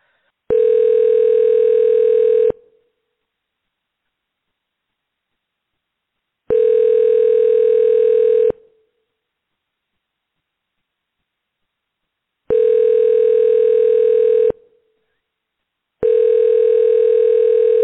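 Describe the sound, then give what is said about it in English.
Overseas telephone ringing tone heard through an internet calling service: four long, steady electronic tones, each about two seconds, separated by roughly four seconds of silence, with no voices. “Sounds like an overseas ringy dingy.”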